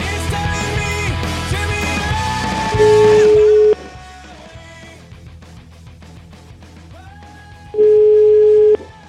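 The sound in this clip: A telephone line tone sounds as a call is placed, in two long, steady mid-pitched beeps separated by a pause, with music underneath.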